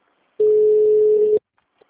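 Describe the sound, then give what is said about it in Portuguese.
Ringback tone of an outgoing phone call: a single steady, mid-pitched tone lasting about one second, heard alone and then falling silent. “chamando, ligando pro DDD81”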